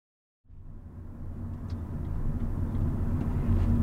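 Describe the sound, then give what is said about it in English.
A taxi's low engine rumble and road noise, heard from inside the cab, start after a short silence and build slightly louder as the car drives on steadily, with no talking. “We go back to the hotel to rest a bit. It's quiet and peaceful in the taxi as we drive over.”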